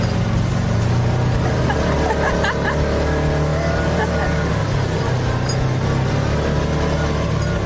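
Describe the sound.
Engine of a four-wheel drive vehicle climbing a steep off-road trail, a loud, steady rumbling drone that holds constant throughout with no clear breaks.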